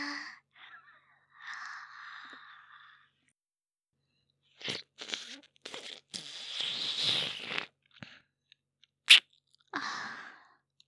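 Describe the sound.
Chewing while tasting food: soft, crunchy bursts of mastication come in irregular clusters between quiet pauses, with breathy sounds mixed in.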